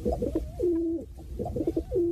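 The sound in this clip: Pigeon cooing, two rounded low calls each made of short throaty notes rising into a sustained, slightly wavering coo, loud and clear with a brief gap between them.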